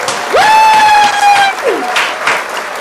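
Audience applause and cheering welcoming a comedian guest, with steady clapping under a loud, sustained whoop that rises at its onset, holds, and then slides downward.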